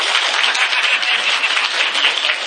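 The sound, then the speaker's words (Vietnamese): Applause from a gathering at a Buddhist temple, dense and steady clapping filling the whole clip at an even loudness. “Vỗ tay đi.”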